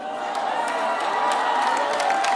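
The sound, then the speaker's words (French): Audience at a rock concert applauding and cheering, a loud, sustained roar of crowd noise with clapping and raised voices blended together, holding steady for the whole stretch. “n'applaudis pas. T'applaudis quoi?”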